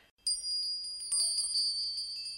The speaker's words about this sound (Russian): Валдайские колокольцы. Да-да, колокольцы.